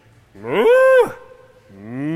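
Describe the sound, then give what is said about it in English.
People in an audience imitate a cow, giving two drawn-out, low, nasal moos. The first is louder and ends in the middle, and the second is still going at the end. “All right, can you all moo? Just moo for a minute.”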